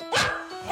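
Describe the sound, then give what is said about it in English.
A happy dog barks a couple of sharp, bright times in quick succession, with a short gap between the barks. “That is the sound of one happy dog.”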